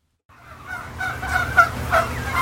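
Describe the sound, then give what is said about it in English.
Turkeys gobbling on a farm in Cannon Falls, Minnesota, where thousands roam. Overlapping gobbles and warbling calls start after a brief silence and build in loudness, with one sharp louder call near the middle. “there are thousands and thousands of turkeys roaming around his farm in Cannon Falls, Minnesota”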